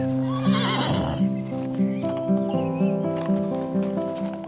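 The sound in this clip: A mare neighs early on, then her hooves clip-clop in a steady, even rhythm at a moderate level, with no talk over them.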